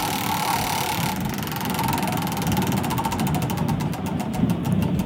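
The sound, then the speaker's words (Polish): A prize wheel spins on a game show, making rapid ticking clicks that gradually slow and spread further apart. The ticks run over a steady, loud background hum. “proszę wpuścić koło w ruch”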